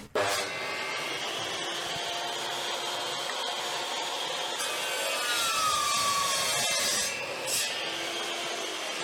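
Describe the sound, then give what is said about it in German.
A school class sawing and working wood in the workshop room makes a steady, dense rasp of saws and rubbing that carries on without a break, with no talk heard. “Also jetzt gehen wir in den Werkraum rein, da ist gerade eine Klasse drinnen, das heißt, es wird ein bisschen lauter.”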